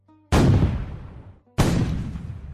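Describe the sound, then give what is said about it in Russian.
Two loud blasts of gunfire and explosions from a siege on the Ochakov fortress wall, each a sudden booming crack that rolls off in a long, rumbling decay, the second arriving about a second after the first. “Раздавались все новые и новые выстрелы и взрывы. Стена Очакова продолжала разрушаться.”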